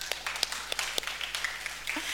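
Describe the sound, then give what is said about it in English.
Scattered applause for a speaker at a talk, with irregular, sharp individual claps standing out over a low background hum, fairly light and uneven rather than a full ovation. “Can we just give Stephen a round of applause?”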